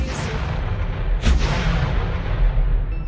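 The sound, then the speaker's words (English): An explosion blast rumbles as a loud, sustained roar of dense noise, with a sharp burst partway through and a renewed swell toward the end. “Where did that blast come from?”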